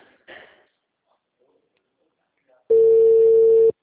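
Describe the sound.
A telephone call goes unanswered: after a brief voice, a single steady telephone tone sounds loud and even for about a second, then stops.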